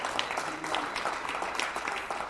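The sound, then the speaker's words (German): Balcony applause for hospital care staff on Rue Saint-Bernard in Paris's 11th arrondissement on a Wednesday evening at 8 pm. Faint, steady scattered clapping continues without pause. “Wie überall in Frankreich gibt es Applaus für das Pflegepersonal in den Krankenhäusern.”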